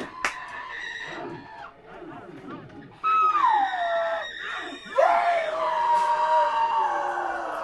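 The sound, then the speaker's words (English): Tortured screaming, several anguished wails overlapping with long falling pitch glides. Two loud fresh outbursts start partway through, and the cries go on without a break to the end. “I can only hear the tortured scream of the hellbound.”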